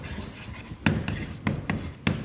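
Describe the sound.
Writing an example sentence on a board: short, scratchy strokes with a few sharper taps standing out from a steady low rubbing.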